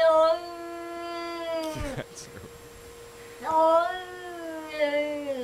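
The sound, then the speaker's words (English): A cat makes two long, drawn-out, wailing meows. The first ends in a sharp downward slide, and the second swells loudly before fading. “That was a dog, right? No, that was a cat. Oh. Cats make weird sounds, man.”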